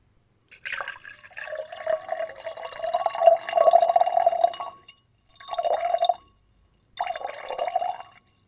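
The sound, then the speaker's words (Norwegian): Water is poured from one glass into another in three bursts: a long gurgling, trickling pour of about four seconds, then two shorter pours, each separated by a brief silence. “det var et litt eksempel av vann som for så vidt kommer fra glass til et annet glass.”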